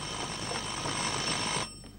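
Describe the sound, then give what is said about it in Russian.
A telephone rings in a filling-station dispatch office: a steady, bright electric ringing runs continuously, then cuts off abruptly near the end, leaving a quieter background. “В диспетчерской звонит телефон.”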